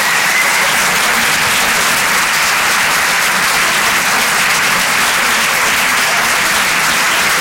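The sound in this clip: Steady, dense applause from a comedy club audience at the Rire et Chanson Comedy Club, a continuous wash of many hands clapping at even loudness from start to finish, with no voices on top.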